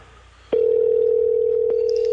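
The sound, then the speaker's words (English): A steady telephone tone sounds as a call rings out before reaching voicemail. It starts about half a second in, after a short quieter stretch, and holds at an even, fairly loud level to the end with no voices. “It's gonna go to voicemail.”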